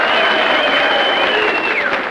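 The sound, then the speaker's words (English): Political convention delegates cheering and applauding, a loud, continuous crowd roar of clapping with raised voices throughout. “delegates cheer under signs that read Shopville, Seatonville, Hartbridge, Fair Harbor, and Carville.”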